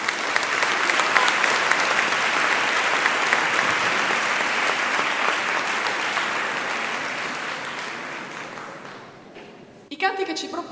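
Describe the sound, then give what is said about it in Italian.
Sustained audience applause greets three choirs at a choral festival. Dense, even clapping holds steady for about nine seconds, then fades out near the end. “E allora a questi tre cori, perché sono ben tre, facciamo intanto questo applauso iniziale.”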